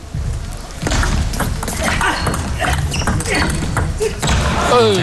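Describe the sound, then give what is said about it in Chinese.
Table tennis ball hits during the fourth game of a professional match, opening with a serve: a few sharp, clicking impacts spaced through the rally, partly masked by steady crowd noise and background voices. “我们接下来看双方第四局的较量。张本智和先发球，”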